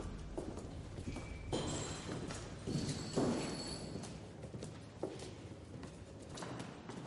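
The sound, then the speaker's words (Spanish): Footsteps climb a staircase and continue along a corridor inside a house, a series of irregular thudding steps at a moderate level. “Suben una escalera. Caminan por un pasillo.”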